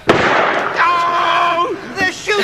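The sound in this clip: A cherry bomb bursts with one sharp, loud crack at the start, and its noisy tail fades as people begin talking. A couple of smaller pops break through near the end.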